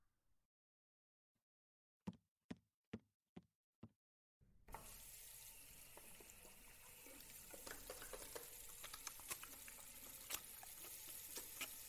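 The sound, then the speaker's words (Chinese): Hands are washed under a running tap: after near silence and a few soft knocks, water suddenly gushes and splashes steadily, with irregular splatters as the hands move through the stream. “嗯，那我先洗手吧。”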